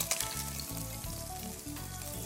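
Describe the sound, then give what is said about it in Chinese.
King oyster mushrooms stir-frying in oil in a pan give off a loud, steady sizzle and crackle that runs unbroken throughout, with no voices over it. “下去炒一下杏鲍菇”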